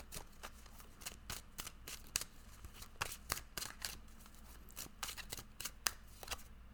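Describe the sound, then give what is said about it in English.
Tarot cards being shuffled, many crisp snapping clicks in irregular bursts over a quiet background, some sharper and louder than others, with no talking. “But let's go ahead and pull a tarot card, see what we need to know this week.”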